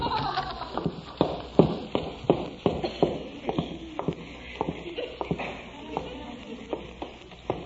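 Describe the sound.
Footsteps going down a staircase in a house: a steady run of many knocking thumps at a brisk, even pace, moderately loud, with no voices.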